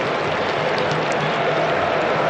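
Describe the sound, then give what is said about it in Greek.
Senegalese fans applaud at a football match as Mané leaves the pitch on a substitution, a steady, dense crowd clatter of clapping mixed with stadium noise. “Τα χειροκροτήματα από τους Σενεγαλέζους.”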